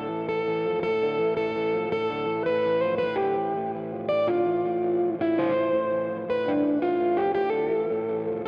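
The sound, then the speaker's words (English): Electric guitar, a sleek black Mexican Stratocaster, plays a melodic line of ringing, sustained notes and chords, colored by chorus, echo and slight distortion, steady and moderately loud with no voices. “That's the sound of a sleek black Mexican Stratocaster,”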